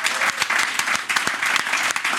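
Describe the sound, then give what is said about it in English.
Loud, dense audience applause with sharp individual claps standing out, sustained evenly throughout. “So big, big hand of applause for Kyle and everybody at Sociology.”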